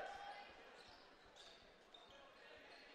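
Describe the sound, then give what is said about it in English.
A basketball is dribbled on a court during a game, making a quick, steady run of soft, low thumps. They are faint and sit under a constant wash of background noise. “Back out the dribble.”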